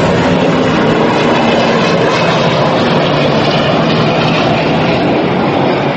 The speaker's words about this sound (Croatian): Helikopteri Kejfora i dalje neprestano nadleću sever Kosova.